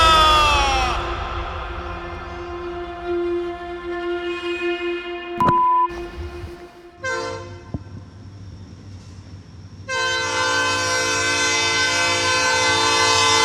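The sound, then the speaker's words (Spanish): A train passes a national football team's training ground at a school in Chattanooga, its steady low rumble punctuated by three loud, harmonic horn blasts, the last held on to the end. “Esto que escuchan es el tren de la Nordvolkshausen que pasa cada día por el campo de entrenamiento de la selección española aquí en Chattanooga.”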